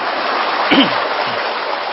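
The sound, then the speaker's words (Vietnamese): Applause from the audience at a temple sermon: dense, steady clapping of many hands, an even wash of sound that holds at a constant level throughout. “Chắc Bình Chánh này là chùa Tường Vân này cái thành là số 1, tôi cho một chàng pháo tay.”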